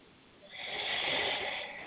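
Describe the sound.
A deep breath drawn in during a guided breathing meditation: a soft, airy rush that swells in after a brief quiet start and holds steady to the end, with no talk.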